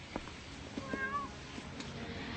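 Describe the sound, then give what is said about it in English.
A cat at a door trying to get in gives a faint, short meow among a few soft taps, all very quiet with no talk. “What are you doing with my cat? Oh, you're scratching to get in.”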